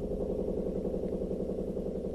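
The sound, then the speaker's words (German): A washing machine running a 60-degree wash gives a steady, loud, low rumble with a fast churning pulse, unbroken throughout, with no voices. “Es ist eine 60-Grad-Wäsche. Ist aber auch beruhigend. Also ich hör's ja wahrscheinlich deutlich leiser als ihr jetzt gerade, aber ich finde, es ist so ein bisschen Meditation auch.”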